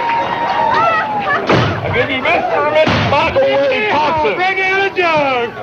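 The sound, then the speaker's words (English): Shotgun salute fired at a wedding in West Virginia: two sharp loud blasts stand out against continuous voices and shouting that carry through the whole clip. “with a gun salute.”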